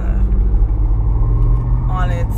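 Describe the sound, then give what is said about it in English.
A truck engine runs nearby with a steady, low rumble that stays constant throughout. “you can hear the truck, you hear it”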